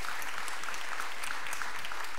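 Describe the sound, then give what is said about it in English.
Dense, continuous applause from a church audience welcoming back a former worship leader, with a steady wash of clapping at an even level throughout. “Let's give it up for Najee and welcome him back.”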